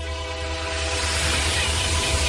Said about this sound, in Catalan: El futuro viene en tren, el medio de comunicación del nuevo milenio.